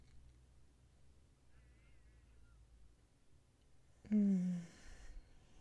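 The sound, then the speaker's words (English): A dog takes a big breath and lets out a loud, groaning exhale of about half a second that falls slightly in pitch. It comes after a long stretch of near-quiet. “I just heard Sherlock like take a nice big inhale and then exhale out. And then so did the puppy that we're watching, my parents' puppy, Sparky.”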